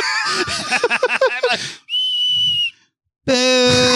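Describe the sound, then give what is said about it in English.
A voice imitates the whistle of a falling bomb with a steady, high, slightly breathy whistle lasting under a second. It comes after a stretch of voiced sounds and is followed by a short gap and a loud, harmonic vocal burst. “so what would that bomb sound like?”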